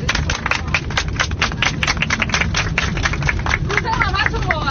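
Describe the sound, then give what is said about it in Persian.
A crowd applauds with dense, rapid, crisp clapping that stays loud and steady throughout, and a few vocal sounds rise over it near the end. “قهرمان زندگی خودتون بودی، لطفا دست بزنید.”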